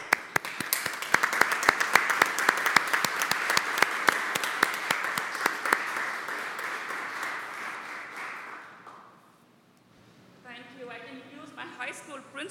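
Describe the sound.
An audience applauds to welcome a new school district superintendent. The steady clapping gradually fades out, and then a voice begins to speak.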